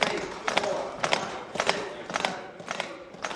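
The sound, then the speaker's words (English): A CPR training mannequin's chest clicks sharply during a class's compression practice, the crisp clacks repeating in a steady, even rhythm about twice a second. “Here's the class practicing those compressions, and you can hear the click of the mannequin's chest.”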